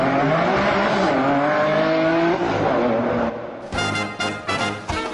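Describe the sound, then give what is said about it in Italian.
A racing car engine roars loudly at high revs, then pulls away with a quick run of gear changes, each marked by a brief dip in the sound. “i motori sono caldi, il piede è pronto sull'acceleratore. Semaforo verde, si parte.”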